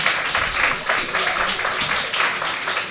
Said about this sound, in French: vous pouvez l'applaudir aussi